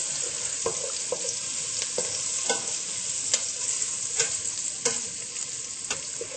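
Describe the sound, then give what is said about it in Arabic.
Onions frying in a pot over very high heat, stirred continuously, give a steady soft sizzle broken by scattered light scraping clicks of the utensil against the pot. “طبعا النار اللي انا حطيتها كتير حامية، فبدنا نضلنا عم نقلب حتى ما تلق البصلات بالطنجرة.”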